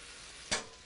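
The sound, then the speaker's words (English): Steak sizzling in a hot pan as it is turned over: a steady fizzing hiss with one brief, louder burst of sizzle about halfway through. “Before we do that, let's turn over our steak. Woo! That's what I'm talking about. I don't want my steak overcooked.”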